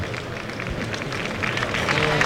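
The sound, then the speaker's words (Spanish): A bullring crowd gives the bullfighter Espartaco a sustained ovation: dense, steady clapping and crowd noise that holds at an even level and swells slightly toward the end. “Agradece Espartaco la ovación que se está llevando de toda la plaza, ¿eh?”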